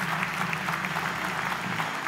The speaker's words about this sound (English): Can we just give them a little round of applause?